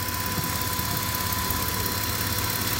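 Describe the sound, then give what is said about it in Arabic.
A car engine idles steadily while the brake pedal is held down after a new ABS pump was fitted. The sound is a continuous, even hum with a faint steady tone running through it. “وحاليا العميل ضاغط فرامل اضغط الصوت اختلف تماما عن الصوت اللي قبله بعد تركيب الطرمبة.”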